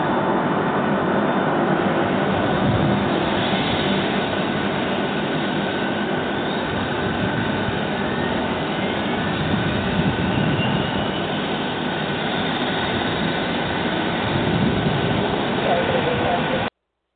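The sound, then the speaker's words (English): Boeing 757 airliner engines starting up: a dense, steady roar that holds at an even level for about seventeen seconds, with no talk over it. “We're going to start this big fellow. We're using a Boeing 757 tonight, so let's get it started and we'll get in the air.”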